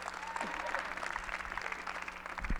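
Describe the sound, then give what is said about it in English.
An audience at a church service claps to welcome a pastor, a faint, steady patter of many hands applauding throughout. “let's put our hands together for the Lord as we welcome Pastor Michael Obi.”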